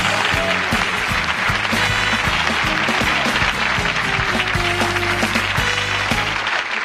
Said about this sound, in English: let's bring out our guest auctioneer with a big round of applause.